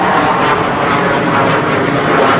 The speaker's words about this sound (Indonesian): tak bisa pesawatnya diperintahkan supaya berhenti hari ini.